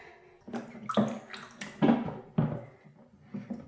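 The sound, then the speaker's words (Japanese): A mixture being stirred by hand to work air into it: several soft, wet, squelching strokes at an uneven rhythm, fairly quiet, with no talking. “じゃあこれを、空気を混ぜ込むみたいな感じで混ぜていきます。なんか攪拌する感じかな。”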